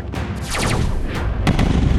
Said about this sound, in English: Cease fire! Cease fire!